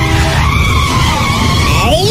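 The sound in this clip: A car skidding, heard as a loud, continuous screech of tire squeal with wavering tonal streaks over a rough roar, lasting about two seconds without a break.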